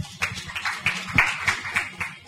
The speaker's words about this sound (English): A clap for Pradeep.